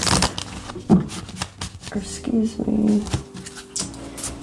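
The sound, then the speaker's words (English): Shuffling of a tarot spirit card deck: a few quick riffling bursts of cards with crisp papery snaps, and a person speaking briefly between the shuffles. “We'll be pulling six cards. We're going to be using the spirit,”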